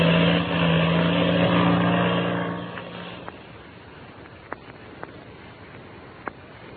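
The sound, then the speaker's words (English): Engine of a black two-seater airplane taking off: a loud, steady droning roar that holds for about three seconds, then fades away into near quiet. “Patsy Donovan and the Mexican boy Pebbles, listen to the takeoff of the black two-seater. And then, when the sound of the engine had faded in the distance,”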